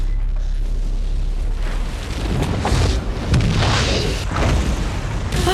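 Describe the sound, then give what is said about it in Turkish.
A big explosion on the Deepwater offshore drilling rig makes a loud, sustained low roar. A few heavier rumbling surges swell over it, and no voices are heard. “Büyük bir patlama oldu.”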